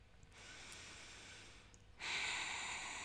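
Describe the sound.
A slow, soft breath out during a guided breathing exercise, a long airy hiss that is faint, followed by a stronger, brighter breath near the end.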